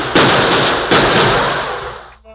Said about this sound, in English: Hold that gunfire in there!